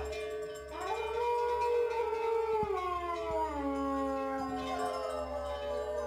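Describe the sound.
A man imitating the howl of an Iberian wolf with his voice: a long, sustained tonal wail that swells, then slides slowly downward in pitch for several seconds. It is fairly faint, over a low, steady hum.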